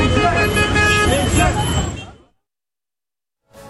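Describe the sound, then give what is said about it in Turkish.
Car horns blare as drivers on a street in Istanbul's Esenyurt react to a fistfight, several horns sounding together over traffic noise and voices before cutting off abruptly into silence. “Sürücüler kornaya basarak tepki gösterdi.”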